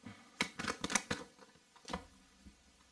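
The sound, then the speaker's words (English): Tarot cards being taken out of a pack and handled: a quick run of papery rustles and flicks comes first, then a few softer scrapes as the handling settles. No one speaks. “I'm just gonna get the cards out and then I'll uh, do the interpretation for you.”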